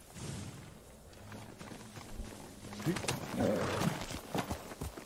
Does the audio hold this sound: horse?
yes